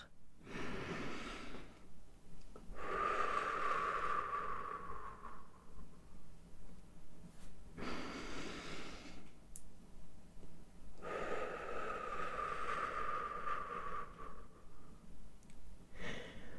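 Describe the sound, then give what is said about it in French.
Slow, deep breathing during a gentle head-circling exercise, with long airy inhalations and exhalations alternating at an even pace and separated by short quiet pauses. “J'inspire en avant et j'expire en arrière.”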